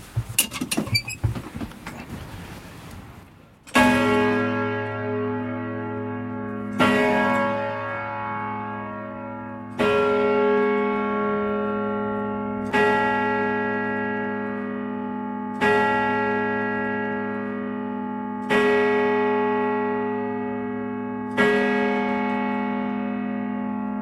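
The church bell Marie-Madeleine tolls seven heavy, regular strikes about three seconds apart, each ringing out and slowly fading, after a clatter of mechanical noise at the start.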